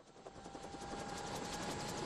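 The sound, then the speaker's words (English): A government helicopter lifts off from a patch of dead grass along the Serbian border with a steady, rapid rotor chop and a droning engine whine. The sound is faint and grows slightly louder. “A government helicopter rises from a patch of dead grass along the Serbian border.”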